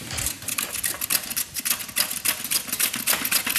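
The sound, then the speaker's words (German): A knife slicing carrots into thin slices, with many rapid, steady, crisp taps of the blade striking through in quick succession, with no voices. “Die Karotten, die werden in feine Scheiben geschnitten.”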